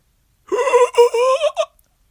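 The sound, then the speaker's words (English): A voice imitates a creature's horrible inhaling scream: a strained, wavering, high vocal cry in a few uneven bursts, ending in a short final gasp. “it let out this horrible noise of, it's like an inhale, like a,”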